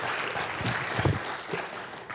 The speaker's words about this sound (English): Would you mind giving a round of applause for Kurt and Julie this morning?